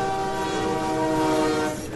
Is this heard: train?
yes